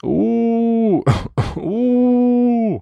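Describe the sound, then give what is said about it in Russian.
A voice performs a long, creaky, wavering howl for a female demon. The howl breaks midway into two short, harsh throaty bursts, then steadies into a sustained howl. “Ненавидя себя, она чуть высунулась наружу, тихо откашлялась и скрипуче провыла.”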